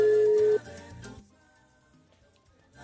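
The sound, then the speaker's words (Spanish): An outgoing phone call to Mexico plays a single steady ringback tone, a loud mid-pitched beep lasting about half a second, followed by much quieter background sound. “¿a quién vamos a llamar entonces? vamos a llamar a Cristian Antonio. Ahí está ya.”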